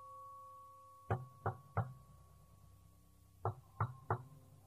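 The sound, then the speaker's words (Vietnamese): Knocking on the door of a hospital nurses' duty room at midnight: six sharp knocks in two groups of three, separated by a pause, over a faint steady hum. “Âm thanh tiếng gõ cửa ngay phòng trực tăng ca của các y tá trong bệnh viện đã rung vang lên hồi.”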